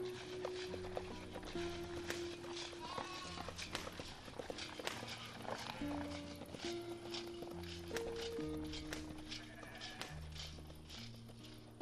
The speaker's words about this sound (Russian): Переведя лошадь на галоп, пересекает долину.